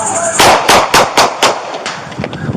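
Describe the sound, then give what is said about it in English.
Gunshots ring out as a police officer fires on an armed man in a backyard: five loud, sharp bangs in a steady series, then several fainter pops trailing after. “Shots fired.”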